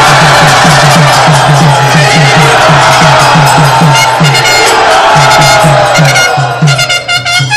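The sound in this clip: A crowd cheers and whoops loudly to welcome a swami as guest speaker. The roar is dense and sustained, with a steady rhythmic low beat underneath throughout.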